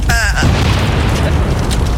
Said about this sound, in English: Hiking up a volcano with a $25,000 cash blast. Little smoke up here.